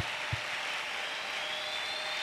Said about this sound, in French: Un Dieu comme ça mérite de bonnes acclamations.